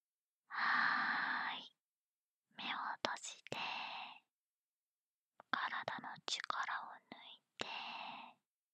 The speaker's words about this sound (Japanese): じゃあじゃあ、もう一回深呼吸してみよっか。